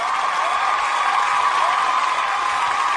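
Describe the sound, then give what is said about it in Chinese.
Audience applause for the judges at a contest, a steady, even wash of clapping that holds at one level throughout, with no talk on top. “再次掌声送给你们”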